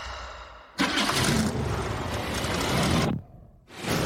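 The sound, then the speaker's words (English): An old, dusty car's engine starts with an abrupt loud roar. It holds a broad, steady rumble for about two seconds, drops away briefly, then surges again at the end. “Oh, and they got the old Ghostbusters vehicle going.”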